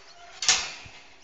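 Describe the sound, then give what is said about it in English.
A gate opens with a single sharp metallic click, followed by a short fading rattle. The sound is fairly faint against a quiet outdoor background. “We'll go get your ball. We'll open the gate.”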